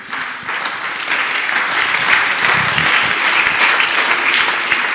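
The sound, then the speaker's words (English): Church audience clapping, a loud, dense and continuous wash of hands that swells after the first half second and holds steady to the end. “Is that the way you clap in this church?”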